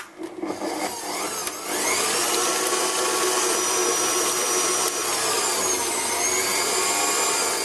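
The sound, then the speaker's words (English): Mixer beating an egg into cake batter, with a few brief clatters and then a loud steady whirring motor drone that runs on without pause. “Now just add 1 egg. It's hard to break it from there, so. And then mix this in.”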